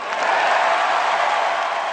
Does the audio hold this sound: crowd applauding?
yes